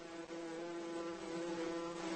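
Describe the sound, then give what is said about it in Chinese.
A male hoverfly beats its wings while hovering in one spot in a forest, giving a steady, faint droning buzz with a low, even hum that holds unbroken throughout. “这只蜂蝇正拍打着翅膀来吸引雌性，雄蜂蝇尽可能长时间地在一个地方盘旋，”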